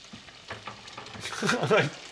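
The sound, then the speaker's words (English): Food frying and sizzling in a pan as it browns and gets flipped: a faint, crackling hiss with a few soft scraping and stirring sounds, growing slightly louder toward the end. “I'm gonna let it brown up and just push it over to this corner a little bit and give it a little flipperoo. Okay, this one's cooking pretty good.”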